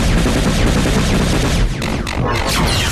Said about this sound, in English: Main batteries! Open fire!